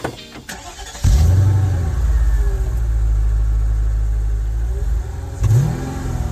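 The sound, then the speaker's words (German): Mercedes M113 V8, an eight-cylinder introduced in 1997, starts in a classic car. After brief cranking it catches into a loud, steady low rumble, then revs up again near the end. “Herzstück des Mechatronik MQP ist der Mercedes M113. Der M113, das ist ein Achtzylinder von Mercedes,”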